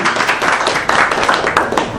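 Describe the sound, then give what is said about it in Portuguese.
Dense, sustained applause from an audience at a ceremony, honouring the pavilion. The clapping stays steady and fairly loud throughout, with a few brief swells. “Uma salva de palmas para o nosso pavilhão.”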